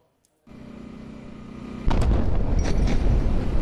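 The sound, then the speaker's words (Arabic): An airstrike explosion hits the town of Mansouri in the Tyre district of southern Lebanon. A low rumble starts suddenly, then a loud, sustained roar breaks in and continues to the end. “غارة، غارة على الهواء يا جماعة، غارة. الآن غارة ثانية على بلدة المنصوري”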